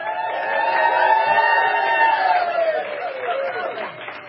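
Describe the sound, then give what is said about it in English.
A live studio audience cheers and whoops in a sustained wave of voices. A drawn-out tone gradually drops in pitch before giving way to scattered excited chatter. “We have a very passionate, wild and crazy live audience.”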